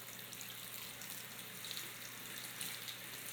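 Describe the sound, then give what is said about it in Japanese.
Water is poured over a body to rinse it, a soft, continuous rushing hiss that stays quiet and even, with no voices. “このままもう一度体も流しちゃいますね。”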